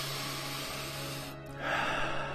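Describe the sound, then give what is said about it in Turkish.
A deep breath drawn in, a broad airy rush that swells after a brief lull, over a low steady hum. “Derin bir nefes alın.”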